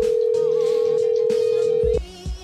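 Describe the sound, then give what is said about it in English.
A telephone line tone sounds while a missed call is being returned: a single steady, mid-pitched hum holds evenly for about two seconds, then cuts off abruptly and is followed by brief low thuds. “God, we had like 20 missed calls during that call, but I'm calling him back.”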